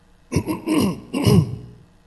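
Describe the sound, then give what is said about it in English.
A person coughs and clears their throat right into a microphone, a few rough, voiced bursts in quick succession, loud and close with nothing else around them. “Sorry, I tried to mute just there. That didn't work. I went the wrong direction. Coughed into the microphone.”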